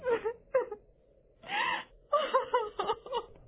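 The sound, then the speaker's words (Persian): Loud sobbing and crying from a voice in a spoken story: wailing, gasping bursts broken by short pauses, with a longer sustained moan in the middle before more choked sobs. “های های گریه کردن”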